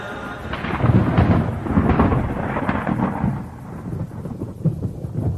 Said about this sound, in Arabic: يا مطر يا مطر الشنا فضل ربي علينا عظيم